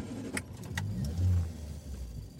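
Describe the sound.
A van's engine starts and drives off in a stormy wind, a four-wheel-drive vehicle. The low engine rumble runs steadily throughout, with a few short sharp clicks near the start.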